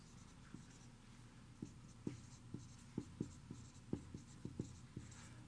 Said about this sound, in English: I'm going to write this so that we remember.